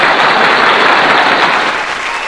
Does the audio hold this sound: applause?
yes